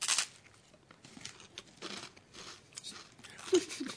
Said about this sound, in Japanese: ちょっとスーパーカップバニラね、うん、バニラとサラダせんべい、これなんか意外であるわね。